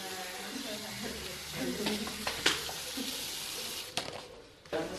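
Tomatoes and green pepper braising in a pot to thicken a curry sauce give a faint, steady sizzling hiss, broken by a few sharp clinks.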